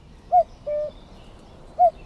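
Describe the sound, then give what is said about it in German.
Common cuckoo calling: three soft, low hooting notes alone against a quiet background. The second note is longer and flatter than the first, and the third comes after a longer gap. “Schön, wie der Kuckuck ab Mitte April bis Ende Juli melodisch seine markante Terz ruft.”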